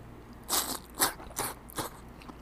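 Crunching and biting while eating thinly sliced Saga beef, quickly cooked until the pink just turns, dipped in ponzu sauce. Four crisp chewing bursts come at an uneven rhythm, with a faint fifth near the end.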